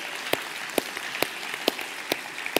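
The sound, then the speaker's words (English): Rhythmic clapping at a church service honoring the children's ministry volunteers: six sharp, evenly spaced claps over a faint, steady wash of noise. “I want to even at this time just give a round of applause to those”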